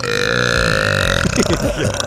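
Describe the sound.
A long, loud, rumbling burp drawn out for over a second, followed by a person talking.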